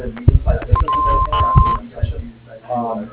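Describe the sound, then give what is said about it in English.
An answering machine beep on a plumbing business's phone line, a single steady electronic tone lasting about a second, sounding over ongoing talk. “Please leave your name and number at the top of the tone and we'll receive your call as soon as possible.”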